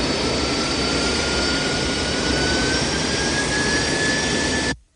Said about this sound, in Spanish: El avión arranca los motores y empieza el despegue.